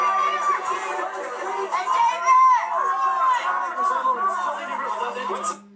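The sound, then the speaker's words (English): A crowd at Planet Hollywood in 1995 chatters and shouts, with many overlapping voices and brief bursts of cheering under a continuous hubbub. “I reckon everyone just heard. And that's what I heard as well. But that's the crowd at Planet Hollywood in 1995, baby.”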